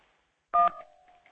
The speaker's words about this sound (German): Es piept.